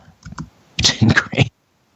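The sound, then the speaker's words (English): A message is typed on a computer keyboard in a chat app: a few sparse key clicks, then a denser, louder flurry of taps that ends abruptly in silence. “He can't hear us, so I'm just going to type him a message.”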